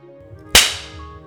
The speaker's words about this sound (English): Why don't we start with your esteemed invention, the candy cane crop whip.